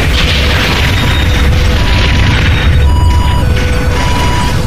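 A heavy explosion as flagship fire strikes a spaceship: a loud, dense rumbling roar that holds steady for the whole stretch without dying away.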